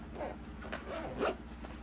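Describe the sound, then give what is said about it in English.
A zipper being pulled closed, heard as a few faint, short rasping strokes spread across about two seconds, with no voices over them. “Will you zip this? What, open or close? Close.”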